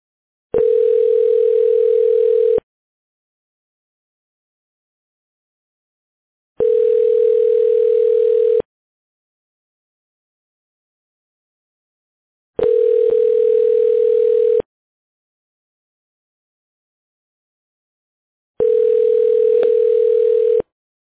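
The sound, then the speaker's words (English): Telephone ringing tones sound after an extension number is dialed on a phone system: four long, steady mid-pitched tones of about two seconds each, separated by even silent pauses. “For Dina, dial 206.”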